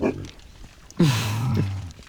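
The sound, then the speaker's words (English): Pigs grunting on a farm, a few short snorty grunts followed by a louder, drawn-out grunt whose pitch drops, all over a rough, noisy background. “That was my predecessor out with you, of course, Anne-Marie McAleese, having a look at the pigs.”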